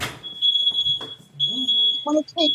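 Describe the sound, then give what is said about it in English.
A household smoke alarm beeps in long, shrill, sustained tones broken by short gaps, while people talk over and between the beeps. “What's that beeping? He's not responding. So let's go to Tyann. I don't know. I don't know. It's our smoke alarm.”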